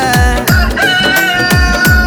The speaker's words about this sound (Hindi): मुर्गा कुकुण कु मत बोले, जान मेरी बोले लव यू।